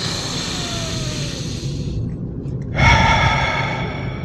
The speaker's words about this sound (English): All right, breath number two, big one.